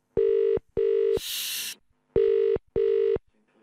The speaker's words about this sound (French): Essayons d'appeler Catherine Pancol. Oula Ça, c'est un numéro à l'international, ça.